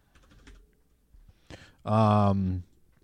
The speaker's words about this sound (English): Let me type in flying.